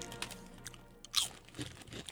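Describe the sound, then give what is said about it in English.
Salt and vinegar potato chips from the United Kingdom crunch in a mouth: several crisp, dry bites and chewing crackles come in uneven bursts at a quiet level, with no voices. “Salt and vinegar chips. Cool. These are from the United Kingdom. Wow, those are really good.”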